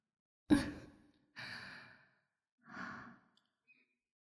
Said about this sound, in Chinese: 喘息的次数逐渐增加了哟，是不是有些辛苦了呢？